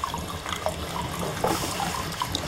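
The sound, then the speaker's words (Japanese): Hot water flowing into a foot bath: a steady rushing hiss of running water that holds at an even level throughout, with no talk. “お湯が出てる音しますよね。さあ、すげえな、足湯やって。”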